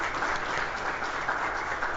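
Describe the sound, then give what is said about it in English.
Applause from an audience at a gathering: dense, even clapping that holds at a steady level for about two seconds without a break. “I think the first thing we need to do is give them applause for doing 3 years of...”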